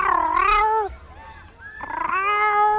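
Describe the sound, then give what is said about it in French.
Cat meowing outdoors in a park: two long, wavering, high-pitched meows with a brief faint sound between them. “c'est le bruit d'un chat”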